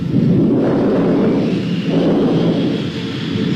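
Deep rolling thunder of an approaching storm, a sustained broad rumble that swells and eases across the whole clip without a break, loud and alone.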